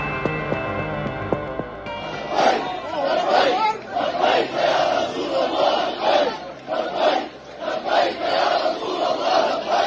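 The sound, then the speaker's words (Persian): Crowd chanting 'Labbayk ya Rasul Allah' in the courtyards of Al-Aqsa Mosque in Jerusalem: many voices shout the phrase together in loud, rhythmic bursts that repeat steadily throughout. “این صدای سردادن شعار لبیک یا رسول الله است در صحنهای مسجد الاقصا در قدس شریف.”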